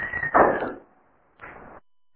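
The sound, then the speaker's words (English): A door in need of oiling gives a short high squeal that breaks into a rough creaking burst, then falls quiet before a second brief scraping creak. “Someone needs to oil their door.”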